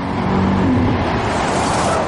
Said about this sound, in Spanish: Un coche se acerca a toda velocidad por un camino de tierra.